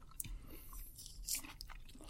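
Someone chews peeled orange segments with soft, wet crunching and biting sounds. The chewing comes as a quiet, irregular series of small bites and squelches, with no talking.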